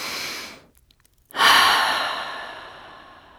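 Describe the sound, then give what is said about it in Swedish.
A breath drawn in through the nose is followed by a short silence, then a long, loud sigh pushed out through the mouth that slowly fades away. “Och kanske tar vi ett andetag in genom näsan och suckar ut genom munnen.”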